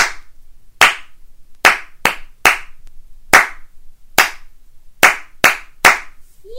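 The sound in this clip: Nine sharp hand claps tap back a rhythm in a listen-and-repeat rhythm game. The crisp, isolated strikes fall in an uneven pattern of short and longer gaps, loud against near silence.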